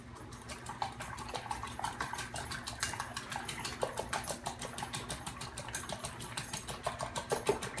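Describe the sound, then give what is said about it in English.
Utensil clinking and scraping against a bowl as ingredients with dried parsley are mixed for dipping chicken strips; a steady run of many quick, bright clicks and scrapes with no talk. “So just mix everything up just like so.”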